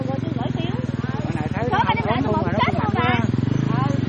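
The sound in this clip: A motorbike engine chugs with a steady, low pulsing rumble as the bike is turned around, while people talk loudly over it.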